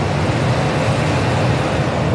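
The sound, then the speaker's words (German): A river cargo motor ship on the Rhine casting off and getting underway, heading downstream to load gravel and sand. A loud, steady low engine drone runs under a constant broad hiss, with no voices. “Die Matrosen machen die Seile los, die MS Bern nimmt Fahrt auf.”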